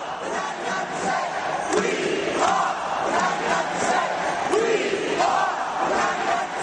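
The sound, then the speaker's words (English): Protesters marching to One Police Plaza in New York City fill the air with dense crowd noise, many voices chanting and shouting in a steady, continuous roar with no breaks. “That is sound that Matt took from Friday. As people march to one police plaza in New York City”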